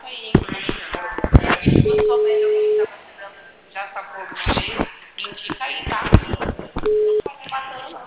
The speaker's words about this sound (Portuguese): Já fiz. Tô chamando, tô chamando.